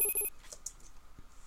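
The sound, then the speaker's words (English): Short electronic beeps from an audio video game: three quick tonal pulses at the start, followed by a few faint, higher-pitched clicks, all quiet. “As you hit up arrow and it pan left to right, you get a higher pitched click instead of that beep. It's more like a click if there's a wall there.”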